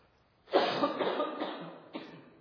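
A cough from a tickle in the throat: one loud, harsh, drawn-out burst, then a shorter second cough, with no talk over it.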